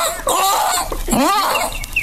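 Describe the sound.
A rooster calls out at dawn on a farm, a loud, strained, rasping cry with a rising and falling harmonic sweep that fills about two seconds, with no talk.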